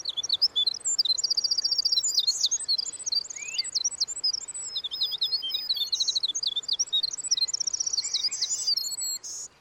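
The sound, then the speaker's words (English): Birds singing outdoors, a dense, continuous stream of high chirps, tweets and quick twittering trills overlapping one another, fairly soft, with no voices or other sounds. “And so those songs of those birds kind of fill the environment.”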